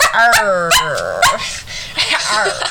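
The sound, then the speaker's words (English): A person imitating a dog, with many loud, yappy barks and whiny yelps whose pitch swoops up and down, coming in quick, uneven bursts. “you just start barking too.”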